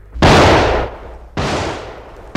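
Rifle gunfire in a battle: three loud, sharp blasts about a second apart. Each trails off in a long, decaying rumble, and the last is cut short at the end.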